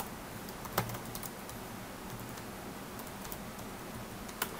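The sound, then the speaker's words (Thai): Network lookup commands typed on a computer keyboard, faint light keystrokes ticking irregularly, with two sharper clicks standing out from the steady tapping. “ลอง ns lookup อีกทีหนึ่งครับปึ๊บผมพิมพ์คำสั่งผิดนะครับเอาใหม่ครับ ns lookup นะครับ”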